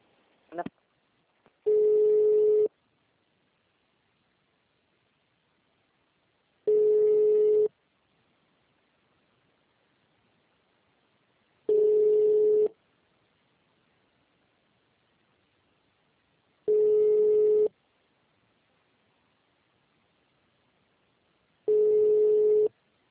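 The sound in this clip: Telephone line tone while trying to place a call: five identical steady mid-pitched beeps, each about a second long, evenly spaced by long silences, after a faint click at the start.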